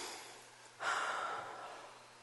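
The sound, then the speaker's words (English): A single long, deep breath starts abruptly as a breathy rush of air and eases off gradually over about a second and a half, with a faint low hum beneath it and no talking. “Everyone take a deep breath, would you?”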